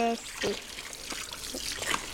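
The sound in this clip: Running tap water splashes as hands are washed clean of chocolate: a soft, steady trickle with a few brief splashing bursts, fairly faint.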